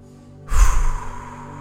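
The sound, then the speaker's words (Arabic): A single loud, breathy exhale during a guided breathing exercise, a sudden sigh-like rush of air that swells and then trails off slowly, with no talk. “نعاودو نديرو التنفس دابا.”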